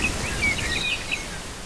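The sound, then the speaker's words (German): Forest ambience with light rain: a steady soft hiss runs throughout while a few thin, high bird chirps and tweets flicker over it, with faint rustling. “vielleicht in Kombination mit so ein bisschen Wald und noch ein bisschen Regen.”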